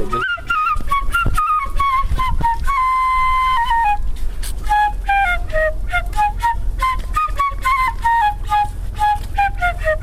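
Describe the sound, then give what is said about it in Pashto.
A shpelai flute plays a continuous, wavering melody with ornamented runs in the Bagh-e Bala area of Kabul, loud and bright over a steady low rumble and scattered sharp knocks. “دلته که دې فکر یې له لرې د شپېلۍ غږ اورېدل کېږي”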